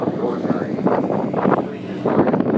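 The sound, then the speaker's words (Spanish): Wind rushes and buffets over the microphone on a moving boat. A loud, steady, rough roar carries throughout, and voices talk underneath it. “Qué viento.”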